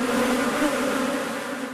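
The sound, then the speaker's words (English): Buzzing bees hum in a steady, droning swarm, a continuous mid-pitched whir that holds at an even level throughout with no voices over it. “Several schools in Russia teach beekeeping.”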